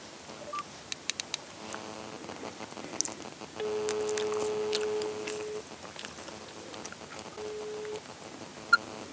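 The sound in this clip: Keypad tones as a telephone number is dialed, a few steady beeps standing out from faint clicks and light background noise, with no talking.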